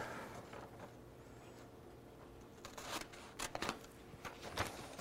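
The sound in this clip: Scissors snip through a sheet of paper: a few crisp, brisk cuts cluster in the second half over a low steady hum, with no one talking.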